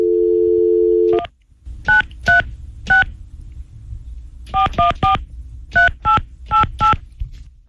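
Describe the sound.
A telephone number being dialed: a steady dial tone stops, then ten sharp touch-tone key beeps follow in quick groups of three, three and four over a low background rumble.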